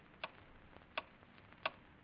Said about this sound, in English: Every tick of the clock bringing death closer and closer.